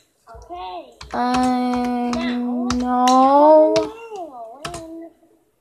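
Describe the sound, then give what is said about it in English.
Keyboard typing as a comment is entered: scattered sharp key clicks spread over several seconds beneath a long, wavering sung or moaning voice. “I'm just gonna type a comment in.”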